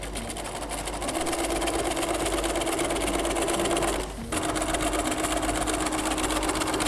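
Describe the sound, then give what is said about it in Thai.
A sewing machine stitches a folded, pre-ironed fabric strip with a loud, steady mechanical whir that stops briefly partway through and then resumes. “เราจะได้เย็บง่ายขึ้นเราก็เริ่มเย็บนะคะ”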